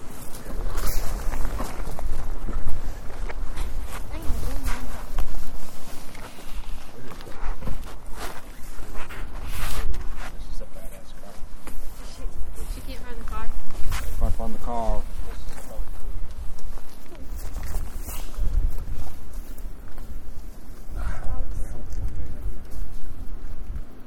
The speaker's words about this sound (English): Alright, we'll just start walking.